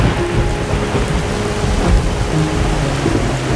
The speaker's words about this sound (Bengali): এমনই সময় হুড়মুড়িয়ে নামল আকাশ ভাঙা বৃষ্টি।